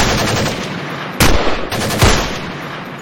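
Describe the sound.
Gunfire in a firefight: a continuous, loud roar of rapid shots, broken by two sharper, heavier blasts partway through, with no voices.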